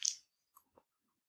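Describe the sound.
Biting into the crunchy cookie base of a slightly warm, soft-topped dessert slice: one sharp, crisp crunch, followed by two much fainter crackles of chewing in near silence.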